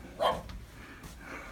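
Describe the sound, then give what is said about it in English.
A small, year-old tricolor Shetland sheepdog gives one short, sharp bark. It is fairly faint and followed by quiet rustling. “What kind is she? She's a tricolor Sheltie.”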